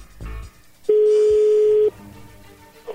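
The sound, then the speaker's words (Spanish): A telephone tone sounds while a number is dialed to place a call: one steady mid-pitched electronic beep lasting about a second. It stands alone and loud, with faint rustling before and after. “bueno a ver, ahí le estamos marcando”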